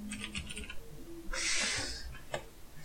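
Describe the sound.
Typing on a computer keyboard produces faint clicks, with a few scattered keystrokes at first and then a denser burst of rapid tapping, followed by a couple more isolated clicks.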